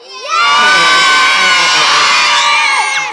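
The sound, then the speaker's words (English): An audience at a live show gives one big shout on cue, many voices whooping and yelling together in a single loud burst that holds for about two and a half seconds before fading. “Okay, so if you're a Dave, give us a big shout.”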